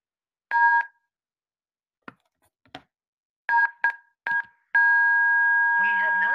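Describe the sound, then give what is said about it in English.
Telephone keypad tones dial a number on an automated phone line: several short dual-tone beeps at uneven intervals, then one long held tone, with a brief voice near the end. “Which one, buddy? Oh, yeah, okay. Let me dial it.”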